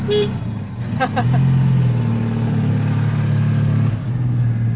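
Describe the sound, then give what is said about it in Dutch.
A vintage car with a four-speed gearbox shifted from the steering column pulls away, its engine rising in pitch after a few sharp clicks, then settling into a steady, loud hum. “Het ziet er niet gemakkelijk uit om dat te besturen. Zijn dat ook 5 versnellingen? Dat zijn hier 4 versnellingen, maar dat is nog aan de stuur. Dus dat is een oldtimer.”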